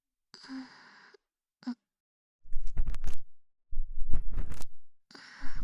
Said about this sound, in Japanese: 次は耳穴の入り口から少し中の耳垢をかき出しますね。